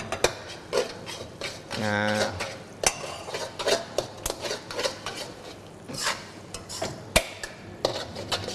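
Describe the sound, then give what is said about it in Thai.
Sauce being ladled onto noodles in a pan, heard as many irregular metallic clanks and scrapes of utensils against cookware, moderately loud and uneven in rhythm. “ตัวน้ำซอสของเราก็ได้ที่แล้วนะครับความเหนียวตามที่เราต้องการเลยเราก็ใส่ลงไปนะ1ทัพพีก่อนนะครับเราก็ดูปริมาณ1เสิร์ฟนะครับเราก็หยอดลงไปได้เลย”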